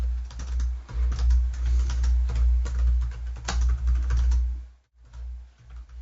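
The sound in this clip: Typing on a computer keyboard: a steady run of clicky keystrokes over a low hum, with a short pause near the end before a few more taps.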